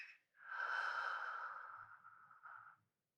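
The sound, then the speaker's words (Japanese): A slow, soft breath during a breathing exercise, a single airy, drawn-out rush of air that swells, holds and tapers away quietly. “お腹が自然と膨らみますよね。最後にもう一回吐いて、”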